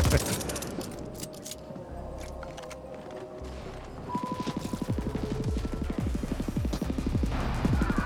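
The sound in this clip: Machine gun fire in a video game: rapid, evenly spaced bursts of many sharp shots, denser and louder through the second half over a low rumbling backdrop.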